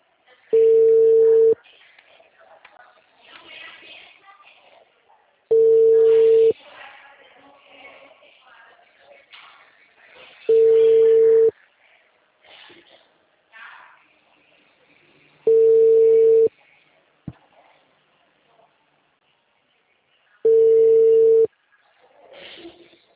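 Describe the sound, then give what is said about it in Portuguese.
Ringback tone of an outgoing phone call sounds as five long, steady beeps at an even pitch, evenly spaced. A faint background murmur fills the gaps between the beeps. “eu tô tentando te ligar agora”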